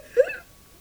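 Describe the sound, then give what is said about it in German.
A woman's single short whimpering sob: a brief, high, strained catch of the voice that fades quickly into quiet. “Und jetzt sitzt sie hier und heult.”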